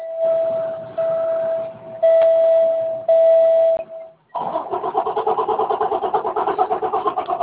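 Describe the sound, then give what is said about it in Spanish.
A vehicle's engine immobilizer locks after a remote stop command: four steady, mid-pitched electronic beeps, then a brief gap and a rapid, rhythmic buzzing pulse that runs to the end. “Eso que escuchas es precisamente el bloqueo de motor”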